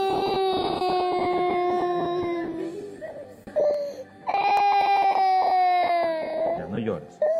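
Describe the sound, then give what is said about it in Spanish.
An infant cries loudly in long, high wailing bursts that break off briefly midway and then resume, while an adult voice talks over the crying. “Está viendo que llores. No llores. Ya viene mami, sí.”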